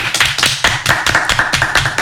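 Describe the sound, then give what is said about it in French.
Applause in the form of steady, rhythmic clapping greets good news. Many evenly spaced, sharp claps repeat at a quick, regular pace at moderate loudness, with no voices. “Et ça s'applaudit.”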